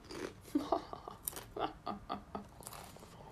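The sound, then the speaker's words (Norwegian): Crisp, sharp crunching as a woman eats crisps and chocolate in a hotel room. Many quick bites and chews follow one another in an uneven rhythm, fairly close and clear, with no talk. “Sier hun og spiser chips og sjokolade der hun sitter på hotellrom.”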